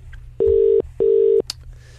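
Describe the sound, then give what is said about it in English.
Two steady, evenly spaced electronic telephone tones, each lasting under half a second with a short gap between, as a call to a friend is dialed out. “So you're going to press a button over there, which is hopefully going to dial up a friend of ours.”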